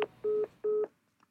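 Two steady touch-tone keypad beeps, each about a fifth of a second, as a telephone number is redialed after a dropped call; the tones sound alone, with a faint click before them and quiet after.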